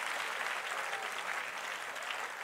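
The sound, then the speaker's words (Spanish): Applause from an audience during a church sermon: dense, continuous clapping that stays at an even level throughout, with no talk over it. “Si ese es el aplauso, déselo mejor al Señor.”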